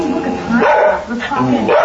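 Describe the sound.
A dog barks and yelps over and over, an agitated, slightly aggressive dog with its hackles up, sounding off constantly in sharp, uneven bursts with whiny, pitched cries.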